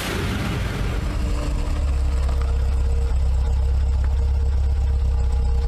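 A car engine runs at a forest entrance where the road ends for vehicles. It is a loud, steady, low idling rumble that holds constant throughout without any revving.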